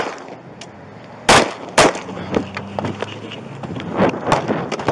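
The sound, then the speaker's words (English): Gunshots in police body-camera video of a confrontation with a suspect: two sharp, loud bangs in quick succession, followed by several fainter impulsive cracks and knocks. “Control, shots fired. Control, shots fired.”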